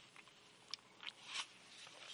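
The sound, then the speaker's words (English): Soft sips of water with small wet mouth clicks and crackly slurping noises, a few faint, uneven bursts with no voice. “I'm going to take a sip of water.”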